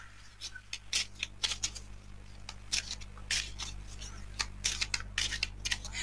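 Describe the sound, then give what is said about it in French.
Playing cards laid down one after another during a card reading, heard as a series of crisp slaps and sliding swishes in an uneven rhythm over a steady low hum. “Alors, je vais déposer les cartes les unes après les autres”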